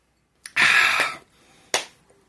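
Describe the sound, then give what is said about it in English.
Slow, spaced claps: a few sharp hand claps separated by pauses, crisp and loud with no voices. “Slow clap and everything, 80s style.”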